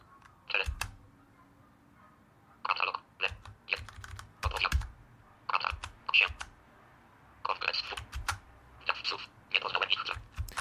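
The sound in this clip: Left, right and K keys are pressed on a small device that pips as it works. Many quick, faint clicks come in irregular clusters separated by short pauses.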